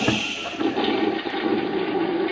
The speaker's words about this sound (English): Throw it all in the bowl and flush it.